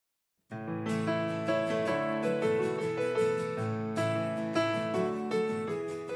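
A full-band song by a singer-songwriter starts after a short silence. Dense, sustained chords and steady melodic lines then carry on loudly and evenly to the end, with no talk.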